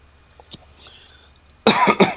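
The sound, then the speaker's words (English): Harsh coughing from someone choking on bourbon: after a near-silent stretch, a loud burst of rough coughs breaks out and surges again just before the end. “He's choking on bourbon.”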